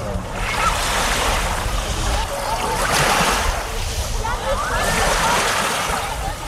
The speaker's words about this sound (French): Voilà, ambiance de plage que vous aurez peut-être la chance de connaître cet été